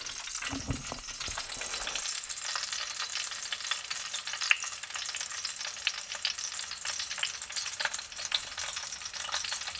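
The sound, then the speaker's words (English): Food sizzles while cooking in a pan for a roasted cauliflower recipe with tahini, a steady crackling hiss dotted with many small pops, fairly faint and continuous, with a brief low rumble near the start. “Here's a recipe that I'm making right now. You might be able to hear the sizzle in the background.”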